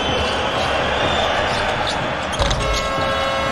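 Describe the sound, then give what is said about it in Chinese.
A basketball strikes the rim during a game, giving a single brief thump partway through steady, loud crowd noise with voices mixed in. “好球，这球打到了篮筐，刷新进攻计时中，重新再打”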